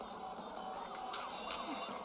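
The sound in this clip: Video game car driving, a steady, quiet engine drone that holds an even level throughout without clear revving.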